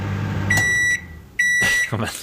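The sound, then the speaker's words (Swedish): A home microwave oven gives two flat electronic beeps at the same pitch, the first longer than the second, followed by brief clattering noise. “Sen har vi min mikrovågsugn hemma.”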